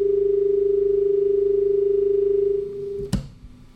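Telephone tone after a phone-in call was cut off: a single steady, pure mid-pitched drone holding for about three seconds, then stopping with a sharp click and a brief thump. No voices.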